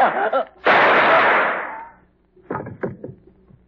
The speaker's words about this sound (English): I told you I was going to use only one shotgun. I gave you a special bargain.